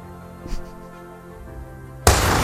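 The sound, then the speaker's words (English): Two guns go off at the same instant, merging into one sharp, loud blast that cuts in abruptly after a quiet, low stretch and rings on to the end. “Was that a dual shot? Yep. How'd they time that so well?”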